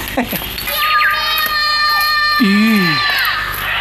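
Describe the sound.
A child crying in a dramatized scene: a high, wavering wail with bending pitch that runs over adult speech, sustained through most of the moment.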